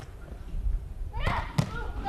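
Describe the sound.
A volleyball struck on a serve during a match gives one sharp, prominent thump, with a softer knock just before it, over low background noise.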